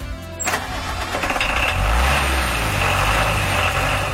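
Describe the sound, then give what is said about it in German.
Unimog truck engines run at an enthusiasts' gathering on an alpine pasture near Großweil, a loud, continuous rough diesel rumble with a sharp surge near the start, then holding steady throughout. “Dafür aber mit ordentlich PS. Dort fand ja das erste Unimog-Glühen statt.”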